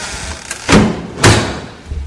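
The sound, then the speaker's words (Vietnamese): A front door bangs open forcefully: two loud, heavy thuds about half a second apart, each with a short rumbling tail, then a fainter low knock. No voices. “trong chớp mắt đã đến ngay cửa chính rồi mở rầm cửa.”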